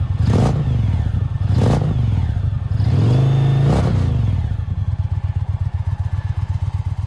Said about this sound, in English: Offhand, I don't know, but listen to the starter. It's like it's just not going to happen.